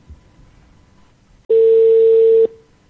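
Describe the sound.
A phone call's ringing tone sounds over a Bluetooth connection: one loud, steady tone lasting about a second with a buzzy edge, after a stretch of quiet low background noise.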